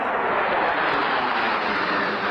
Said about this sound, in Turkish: Karşılaşma öncesinde ABD Hava Kuvvetleri'ne ait 4 F-16 savaş uçağı milli marşlar sırasında stad üzerinde alçak uçuş yaptı.